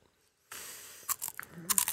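Crunchy chewing of a sour-tasting snack from a bag: after a brief silence, a few crisp bites and crunches come in short bursts, fairly faint.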